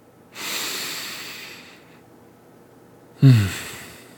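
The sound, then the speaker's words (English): A long, deep inhale rushes in for over a second. After a short pause comes a sudden, forceful exhale with a slight snorting edge. No words are spoken. “I'm going to take a deep breath. I invite you to take a deep breath with me.”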